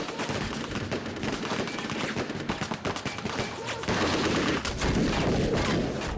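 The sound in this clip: Machine guns fire armour-piercing bullets into a train carriage in a dense, continuous rattle of overlapping shots. The barrage stays loud throughout and grows heavier in its final seconds.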